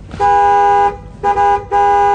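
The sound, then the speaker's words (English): A car horn honks three times: a long blast, then two shorter ones. Each is loud, with a steady pitch and a brassy tone. “It doesn't react to the honking.”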